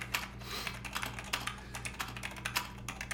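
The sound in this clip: Typing on a keyboard as a statement is taken down in a police interrogation: many rapid, irregular keystrokes with sharp clicks, fairly loud over a steady low hum, with no talk.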